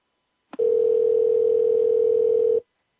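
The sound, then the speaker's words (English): Telephone dial tone while a dropped call is being reconnected on another phone: a brief click, then a steady, loud, unbroken single-pitch hum lasting about two seconds before cutting off. “Okay, we're reconnecting to Tara and Rama on another phone.”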